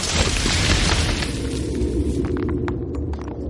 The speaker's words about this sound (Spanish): El tanque dispara. La primera casa vuela por los aires y el capitán Miller es arrastrado por la onda expansiva.